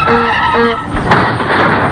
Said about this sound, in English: Oh, what a beautiful motor car.